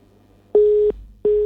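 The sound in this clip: Telephone busy tone after a dropped call: two loud, flat beeps at one steady low-mid pitch, each lasting about a third of a second, separated by a short silence and heard alone.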